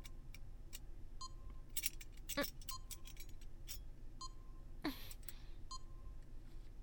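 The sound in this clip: Small metal keys for a lock jangle and clink: scattered faint, bright metallic ticks and chimes come at irregular intervals, with a few sharper clicks standing out, and no voices.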